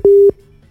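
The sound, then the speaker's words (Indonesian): A telephone busy tone sounds after a caller's line dropped during a phone-in: one loud, steady, mid-pitched beep about a quarter-second long, followed by faint low hum. “Oke, nampaknya ada kendala di jaringan ya dari Biul di Sungai Batu. Boleh nanti dicoba lagi”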